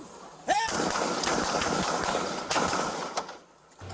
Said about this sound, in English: That's when four officers opened fire.